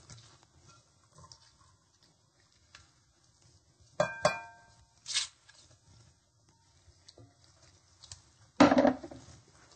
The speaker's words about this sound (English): And stir it, mix it really well.